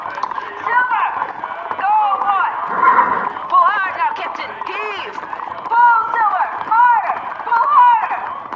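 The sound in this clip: Horse hooves galloping in a radio drama, a rapid, steady drumming of hoofbeats that runs continuously beneath loud shouting voices.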